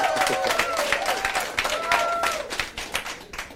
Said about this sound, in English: Hey, I brought the live crowd for you, J.J. First time on my show, I said I got to bring a group for you.